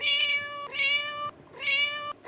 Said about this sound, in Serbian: Tako govore mačke. Hajde da čujemo jednu pravu persijsku mačku.